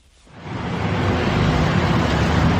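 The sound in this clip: Steady roar of a car driving around Moscow, swelling in over the first half second and then holding a dense, even rumble of engine and road noise with no voices.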